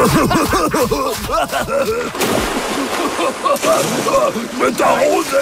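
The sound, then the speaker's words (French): Water splashes and sloshes as two friends play in it, with loud bursts of spray under their excited shouting and talking. “Je vais t'arroser ! Arrête ! Tu m'en envoies dans les yeux !”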